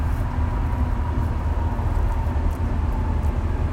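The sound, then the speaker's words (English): A long train passes in a continuous low rumble with a broad, steady rushing noise. No distinct clacks stand out and no one speaks. “It's a real long train.”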